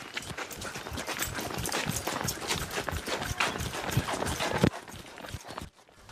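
Running footsteps of a group of elderly villagers setting off on a jog together, a quick, steady patter of many beats that cuts off abruptly at the end.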